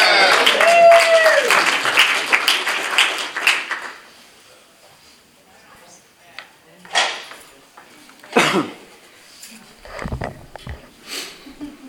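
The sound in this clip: Audience applause welcomes a guest speaker: dense clapping fills the first four seconds, then dies away into a few scattered knocks and rustles.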